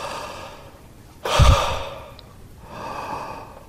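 Breathing in and out with no speech. An abrupt, strong, airy breath fades over about a second, and a softer, longer breath follows after a short pause.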